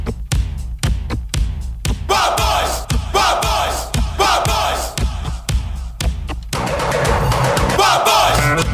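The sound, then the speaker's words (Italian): A theme jingle opens with a punchy, regular drum beat under shouting crowd-like voices, then swells into a denser, sustained section near the end. “Ok, sì, lanciamo la sigla e poi salutiamo bene gli ascoltatori.”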